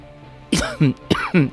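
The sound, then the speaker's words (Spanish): Coughing from one person: a few harsh, throaty coughs in two closely paired bursts, fairly loud over a faint steady background hum, with no talk during them. “Perdón, la tos que os decía.”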